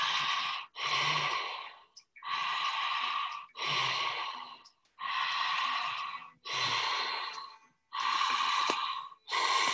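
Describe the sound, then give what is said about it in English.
Rapid, deep breathing through an open mouth, a regular run of many forceful, airy breaths with short gaps between them, strong and even throughout, no talk. “We're going to begin to speed up the breath just a bit. It's going to sound like this. You can match me at the first.”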